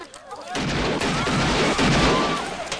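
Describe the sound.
Gunshots fired at an honor guard during a shootout at a funeral: dense, loud, overlapping bursts of firing that run almost without a break after a brief quieter start.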